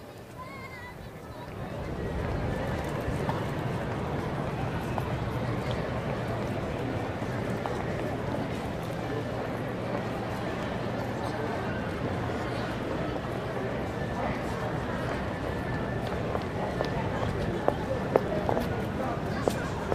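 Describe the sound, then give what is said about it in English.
Busy street ambience in Covent Garden, London, with a continuous wash of crowd chatter, footsteps and a low steady rumble that rises after the first two seconds. People talk throughout, with a few sharper knocks near the end. “So, yeah, this is Covent Garden, and we'll let you have a listen to that.”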